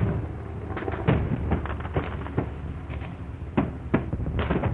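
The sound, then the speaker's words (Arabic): Air-raid explosions in a radio drama: many booming blasts and sharp cracks follow one another in quick, irregular succession over a continuous low rumble, loud throughout. “يا نصيبتي غارة.”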